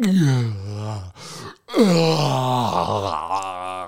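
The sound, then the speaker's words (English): An exhausted person yawning hard at bedtime: a long, voiced, moaning yawn that slides down in pitch, a brief pause, then a second drawn-out yawn that trails off slowly. “jaw is hurting from how powerful the yawns are.”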